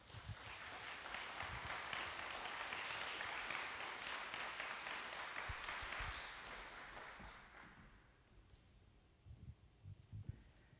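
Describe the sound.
Audience applause at a church gathering welcomes two guests to the stage, a quiet, dense wash of many hands clapping that holds steady and then fades away, leaving a few scattered claps.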